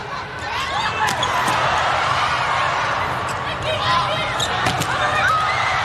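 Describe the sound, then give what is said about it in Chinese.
A few sharp ball slaps cut through a dense, constant crowd roar as a middle blocker serves in a volleyball match between China and the USA, with voices mixed into the noise. “副攻手奥尼尔来发球”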